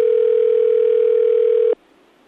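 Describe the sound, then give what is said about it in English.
A telephone sounds with a single steady electronic tone, one continuous even-pitched note held for under two seconds before cutting off abruptly into near silence. “Okay, the phone's going again.”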